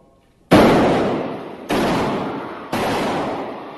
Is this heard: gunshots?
yes

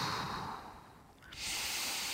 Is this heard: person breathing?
yes

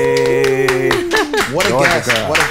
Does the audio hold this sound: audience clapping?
yes

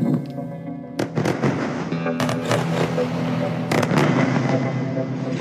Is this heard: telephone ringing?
no

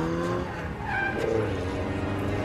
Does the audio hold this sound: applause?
no

